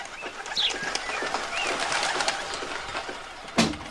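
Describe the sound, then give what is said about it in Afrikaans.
Doves coo in a steady, continuous run of soft, low calls at moderate loudness, with no talking over them. “Net sodra ek begin vergeet van die duwe is dit weer sulke tyd.”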